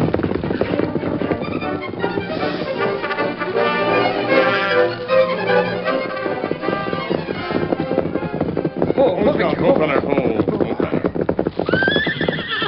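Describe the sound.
Horse hooves clip-clop in a steady, continuous run as riders ride off in a Western drama, with a horse whinnying loudly over the hoofbeats.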